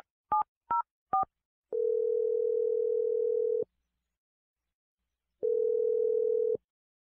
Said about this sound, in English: Okay, I'm going to dial her number right now.